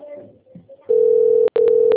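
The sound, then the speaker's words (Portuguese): A ringback tone on a telephone call: a steady, loud electronic tone that begins after a moment of low, murmured talk and cuts out briefly a few times. “Tá atendendo, tá chamando.”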